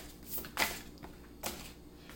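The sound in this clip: Tarot cards are shuffled and drawn: a few faint, papery flicks and soft slaps of cards, heard as brief separate bursts against a quiet background.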